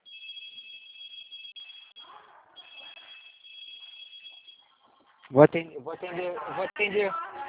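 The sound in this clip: A telephone rings with a high, steady electronic tone in two long bursts. After a short pause, a person begins talking.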